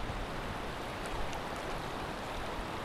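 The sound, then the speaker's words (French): Water flows across a shallow stream ford in a steady, even rushing hiss that holds at one level throughout without pause. “Il y a un endroit, il y a un guet. Je vais te faire écouter le guet.”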